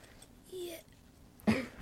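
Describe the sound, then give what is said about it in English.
A child coughs once, a short, fairly loud burst that stands out near the end after quieter sounds. “Have a cough.”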